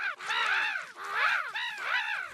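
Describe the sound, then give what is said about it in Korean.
Crows caw three times in a row. Each call is loud, harsh and raspy, rising and then falling in pitch. “그러면 허수아비가 까마귀들을 쫓아낼 거야.”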